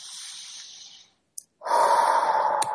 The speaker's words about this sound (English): Taking one deep breath for that.